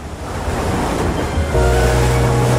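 Ocean waves breaking in a steady, loud, rushing wash of surf with a deep rumbling undertone that swells slightly in the second half, with no talk.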